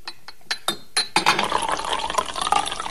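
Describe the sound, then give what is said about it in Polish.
Liqueur poured slowly from a bottle into a glass carafe: a few short glass clinks, then a steady, bright trickling pour that runs on without a break. “i przelewam powoli zawartość butelki do karafki.”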